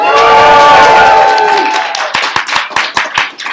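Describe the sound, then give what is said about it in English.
An audience at a fitness seminar cheers loudly. The roar of voices fades after a second or two into scattered, uneven clapping. “We're here at the first ever Elite Physique University seminar. Make some noise, everybody.”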